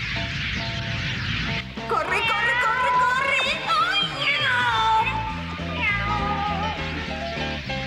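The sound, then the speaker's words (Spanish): A cat meowing: several drawn-out, wavering meows with sliding pitch, fairly loud over steady background music. “¡Ay, qué gato tan feo!”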